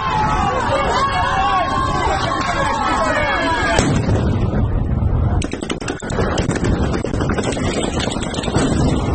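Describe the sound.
Stun grenades explode and gunfire cracks at a protest near a monument. Heavy booms cut through loud crowd shouting and wind noise, with a dense cluster of bangs in the second half.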